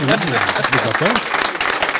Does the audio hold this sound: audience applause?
yes